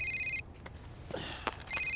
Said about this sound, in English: Campbell's phone is next to him, his wife's picture on the screen. Strickland scowls, then picks it up.